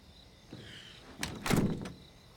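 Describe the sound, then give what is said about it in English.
Someone trying a locked living room door, producing a few short, faint thunks and rattles clustered together midway, against a quiet background. “tries the door, but it's locked.”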